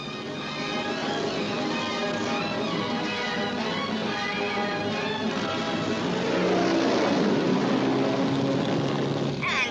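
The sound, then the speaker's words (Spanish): An outboard motor drones on a flying magic carpet in a 1948 cartoon sound effect. The buzzing engine hum runs steadily and grows somewhat louder and busier in the second half. “Y de pronto llegué a donde alquilaban alfombras mágicas con motor fuera de borda.”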